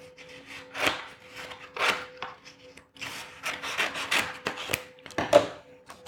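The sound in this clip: Paper being cut open on an escape-room advent calendar, heard as many irregular, crisp scraping and snipping bursts. They are fairly faint, with a low steady hum underneath.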